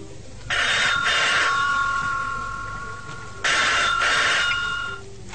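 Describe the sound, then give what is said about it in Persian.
A telephone bell rings in two long bursts, the first trailing off before the second, loud and shrill with a buzzing metallic tone. “باز دیدم زنگ میزنه مثل همیشه تلفن”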